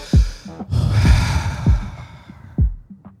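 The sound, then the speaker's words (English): A deep breath, drawn in as a loud, broad, airy rush that swells and then fades. No words are spoken. “I think the first thing we should do right now is take a deep breath.”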